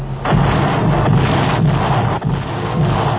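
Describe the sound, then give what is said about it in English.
Missiles explode in a chain reaction above the atmosphere, destroying each other as a sustained roaring rumble. Several heavy low booms punch through the steady blast noise. “Getting a chain reaction, sir. Missiles destroying each other. We must destroy every single missile.”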